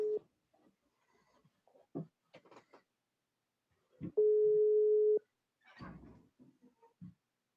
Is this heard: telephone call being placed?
yes

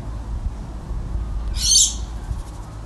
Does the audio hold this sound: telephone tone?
no

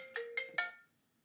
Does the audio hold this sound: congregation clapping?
no

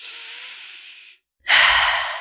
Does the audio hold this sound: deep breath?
yes

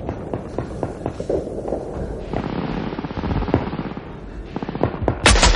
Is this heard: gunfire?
yes

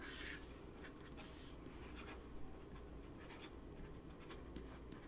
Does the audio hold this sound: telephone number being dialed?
no

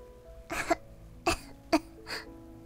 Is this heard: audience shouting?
no

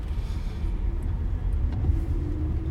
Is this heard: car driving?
yes

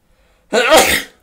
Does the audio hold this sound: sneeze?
yes

